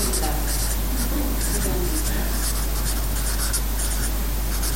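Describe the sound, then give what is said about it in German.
Pen strokes scratch out German text written beneath earlier writing: many faint, quick scratchy bursts in an uneven rhythm over a steady low hum. “Ich schreibe es drunter.”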